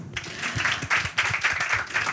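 Audience applause for a stage guest comes as a brief burst of dense clapping that swells and dips in uneven pulses.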